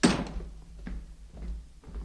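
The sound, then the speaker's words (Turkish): A front door being opened at home: a heavy thump at the start, followed by a few softer clunks and latch rattles spaced through the rest of the moment, with no voices. “Kapıyı açman kaç saniye sürdü?”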